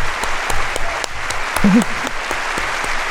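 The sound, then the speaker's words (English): A crowd applauds and cheers after an announced $500 win, with dense, steady clapping filling the whole stretch and a short voiced whoop rising in the middle. “And what happened? There's the crowd.”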